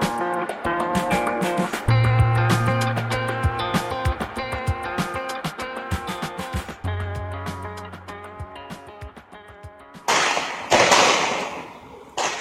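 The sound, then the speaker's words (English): Gunfire from a police shootout with a bombing suspect in Linden, New Jersey: many rapid sharp cracks in dense bursts, growing louder near the end. “The sound of a shootout between the suspect in the New York, New Jersey bombing, Ahmad Khan Rahami, and police in Linden, New Jersey.”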